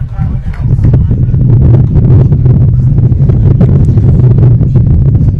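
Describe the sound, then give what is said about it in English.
Wind buffeting a microphone at a baseball game: a loud, continuous low rumbling roar that swells after the first half second and holds steady throughout. “Wind blowing.”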